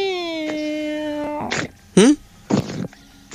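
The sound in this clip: A voice imitates a sleeping cat: a long wavering whine followed by three short, breathy snort-like bursts separated by brief pauses.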